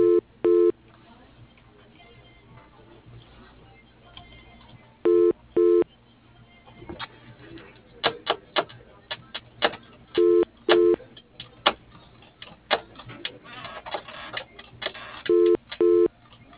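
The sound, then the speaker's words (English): A phone line rings after a number is dialled, the double ring tone repeating four times at steady intervals over a low line hiss, with scattered short tones and clicks between the rings. “For James, dial 101. For Agnes, dial 103. Please wait a moment.”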